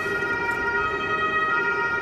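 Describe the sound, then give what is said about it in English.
A siren blares together with a passing train, a loud steady tone carrying layered harmonics that holds unbroken through the short stretch over a low rumbling bed. “the, train and the siren together is a lovely combination.”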